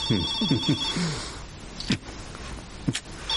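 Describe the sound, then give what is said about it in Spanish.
A telephone rings with a bright, trilling electronic tone at the start and again at the end. Soft murmured vocal sounds come in between the rings. “Ella atiende la llamada.”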